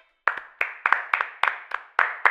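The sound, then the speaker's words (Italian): Hands clap as applause in a studio, about eight sharp claps at a steady, even pace, each one crisp and alone with no voices over them. “Applauso.”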